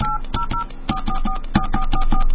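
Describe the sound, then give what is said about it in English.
Touch-tone telephone dialing, a fast run of many short paired-tone beeps with sharp key clicks, loud and evenly spaced, as a number is keyed in for a call. “dial the area code and number you are calling.”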